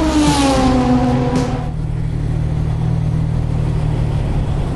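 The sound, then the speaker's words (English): An XK150 car's engine and exhaust burble as it drives up a ferry boarding ramp. A revving engine tone leads, then settles into a steady, low, throbbing rumble that continues to the end. “That's the sound of the XK150's engine and exhaust burble as we travel up the ramp to board the Seafrance Moliere.”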